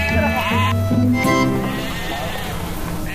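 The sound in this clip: Sheep bleat while being herded, their wavering, quavering cries overlapping one another over a noisy background.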